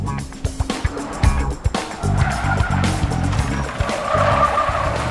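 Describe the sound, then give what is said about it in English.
A car leaving a freeway and driving into an urban area, with steady engine and road noise, a few sharp knocks and thumps early on, and a rising whine of tire noise later. No voices. “Exiting the freeway, Maddie drives through an urban area.”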